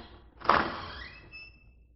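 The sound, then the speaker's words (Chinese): Door being pushed open: one soft, quick thump or swish, followed by a faint, thin squeak that lingers and fades away. “我推开门，”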